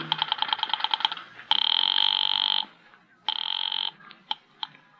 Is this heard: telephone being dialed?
yes